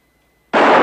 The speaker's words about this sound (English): Rance cocks the gun and aims, all nervy and tense.